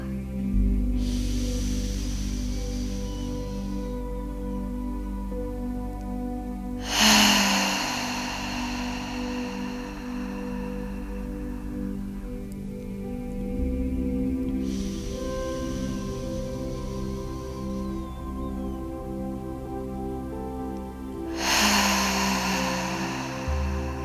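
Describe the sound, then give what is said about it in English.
Deep breaths with open-mouth exhales: a few long, airy, breathy rushes at slow, even intervals over a steady, low sustained musical drone. “Take three final deep breaths with an open mouth exhale.”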